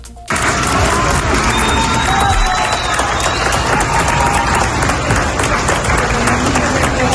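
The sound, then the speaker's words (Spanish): Applause welcomes emergency teams from Madrid and Badajoz returning from earthquake rescue work at Valencia airport in Carabobo, Venezuela: sustained, dense clapping mixed with crowd noise, starting abruptly and staying loud throughout. “A los equipos de emergencias los esperan entre aplausos y lágrimas después de haber visto de primera mano la devastación que ha dejado el doble terremoto en Venezuela.”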